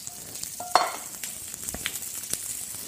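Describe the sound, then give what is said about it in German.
Food frying in neutral oil, a constant bright sizzling hiss scattered with many small crackles and pops, with a short louder burst near the start. “Aber soll auch gleich anfangen zu braten. Ne? Und da hast du auch wieder neutrales Öl genommen, ne? Dann nehme ich jetzt auch neutrales Öl.”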